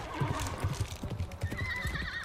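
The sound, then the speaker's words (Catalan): Horses gallop with low, repeated hoofbeat thuds, and a wavering, high-pitched whinny rises near the end, in a dramatized scene of a band of riders setting off. “Som-hi, al galop!”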